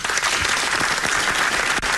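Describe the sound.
A studio audience applauds loudly as a theatre man arrives as a talk-show guest. Thick, continuous clapping stays at a strong, even level, with one brief dip near the end.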